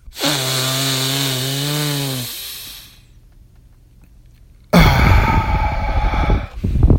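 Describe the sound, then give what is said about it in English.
A deep breath through the nose. It starts as a buzzing, wavering whistle-like tone for about two seconds, falls briefly quiet, then ends in a loud, rough rush of air. “Did you hear that sound my nose make? Really, I did something. I don't know what I did to my nose.”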